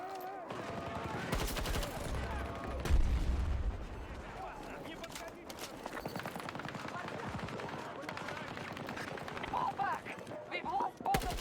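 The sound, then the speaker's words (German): Video game gunfire: sharp bursts of shots and rapid automatic fire break out repeatedly, loudest in a heavy cluster of blasts early on, over a dense, busy backdrop of game sound. “Nice, voll in den Kopf geschossen, passiert nichts. Ja, bam, dead.”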